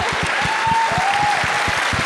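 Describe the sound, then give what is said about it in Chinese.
An audience at a film awards ceremony applauds the best-film winners with dense, steady clapping that holds at an even level throughout. “再次祝贺，让我们再次响起掌声吧，祝贺我们今天晚上最大的赢家，祝贺你们， 恭喜大西洋，”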